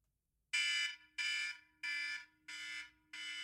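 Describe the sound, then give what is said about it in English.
A timer alarm signals that a five-minute round is up, sounding five loud, steady-pitched electronic beeps of about half a second each, evenly spaced and heard alone. “And every time the alarm goes, which is when you'll hear this noise,”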